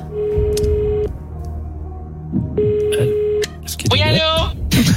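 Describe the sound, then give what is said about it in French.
A telephone number is dialed for a call during a comedy quiz game: two steady electronic phone tones, each about a second long, separated by a short gap, among other noisy clatter. “vous pouvez faire appel à un ami. On appelle Anne Hidalgo.”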